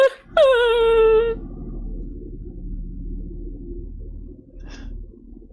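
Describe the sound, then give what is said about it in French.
A man wailing and crying, a bald, heavyset man of about 35 in striped pyjamas: one high, wavering moan that breaks off after about a second, then a low steady hum and a brief faint sound near the end. “Il continue de pleurer.”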